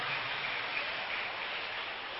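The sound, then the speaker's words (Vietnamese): Children give a big round of applause at a program, a dense, even patter of many small hands that holds steady throughout. “Thì bây giờ các cháu hãy dành một tràng pháo tay thật lớn để tán dương mình và tất cả các bạn có mặt trong chương trình ngày hôm nay.”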